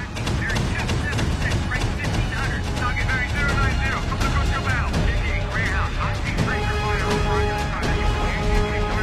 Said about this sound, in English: A distant ship explodes. Shots fire from Greyhound toward a U-boat in the distance.